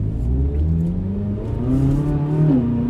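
A sports car's engine drones as it drives on the road. It starts as a low, steady hum, then climbs in pitch as the car accelerates, with no voices over it.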